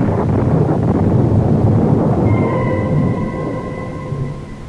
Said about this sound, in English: But again the clouds are gathering and the storm is at my heels.